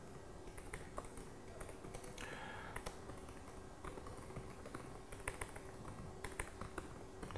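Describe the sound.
Soft keyboard clicks from typing code in Visual Studio Code on a computer keyboard: many quick, irregular taps, faint and alone without talk.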